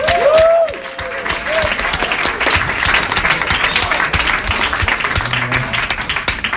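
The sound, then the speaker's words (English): Audience applause for a comedian being brought on at a stand-up comedy show: dense, steady clapping from many hands, loud and sustained throughout. “please give it up for the very funny Ian Ellis”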